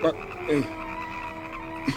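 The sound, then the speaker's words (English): Frogs croaking in a plague of frogs, a few short, throaty croaks spaced apart over a low, steady background. “we can produce frogs, but we cannot get rid of them.”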